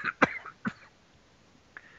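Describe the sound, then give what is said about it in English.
A few short, dry coughs in quick succession, then a faint throat sound after a pause. “I'm sitting there coughing there. I don't know why.”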